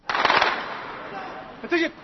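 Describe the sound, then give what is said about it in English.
Gunfire on the outskirts of Basra as Iraqi forces battle militiamen in the oil port city: rapid bursts of crackling shots, dense at the start, then a steadier rumble and another short burst near the end. “Gunfire on the outskirts of Basra as Iraqi forces battle the Shiite militiamen who control that oil port city.”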